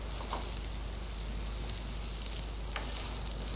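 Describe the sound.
Boiled peas sizzling in a pan over a lowered gas flame: a steady, faint crackling hiss with a few small pops and no voices.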